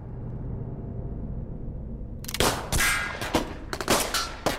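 Gunfire at an indoor shooting range: a low steady rumble gives way to many loud, sharp shots in irregular bursts, some in quick succession.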